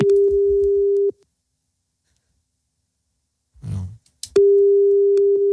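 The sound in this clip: A steady telephone dial tone sounds while a call is placed. A loud, constant mid-pitched hum cuts off after about a second, then silence and a short breathy rustle, before the tone returns and holds to the end.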